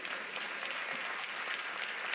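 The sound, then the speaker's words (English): Applause from an audience at a church sermon, a dense, steady patter of many hands clapping at an even level throughout, with no voices over it. “Y'all see how few the claps are? I see how they're getting lower and lower.”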